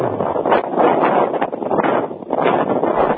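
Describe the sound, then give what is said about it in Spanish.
Strong wind hitting a correspondent's microphone outdoors, a loud, steady, muffled rumbling roar that swells and dips in gusts and buries any other sound. “Tenemos un fuerte viento allí”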